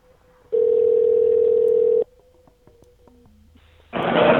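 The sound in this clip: A landline dial tone hums steadily, then stops. A quick series of short keypad tones follows, and then a louder, rougher burst of sound cuts in.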